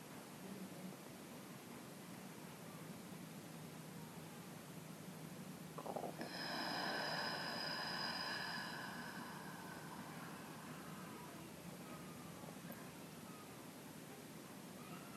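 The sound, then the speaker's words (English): A single slow, audible exhale during relaxation breathing rises out of a steady soft hiss partway through, carrying a faint voiced, sighing tone before fading back to the quiet background. “You'll notice that I allow a little bit of sound with my exhale.”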